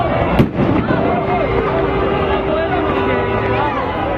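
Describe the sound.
A firework bangs once, sharp and loud, amid a dense, continuous roar of crowds filling the streets of Şırnak and Diyarbakır celebrating a win, with voices mixed into the din.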